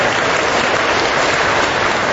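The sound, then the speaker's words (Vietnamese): Children give a big round of applause at a church gathering to thank their youth leaders, a loud, dense, unbroken patter of many small hands clapping at once. “Chúng con thiếu nhi một tràng pháo tay thật lớn để tạ ơn Chúa đã gửi các anh chị huynh trưởng đến cho chúng con.”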